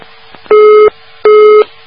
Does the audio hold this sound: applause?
no